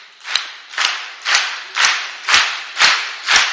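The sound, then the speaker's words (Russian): Seven loud, ringing hand claps, sharp as gunshots, land in a steady even rhythm about half a second apart with quiet gaps between them. “Очень звонкий хлопок,”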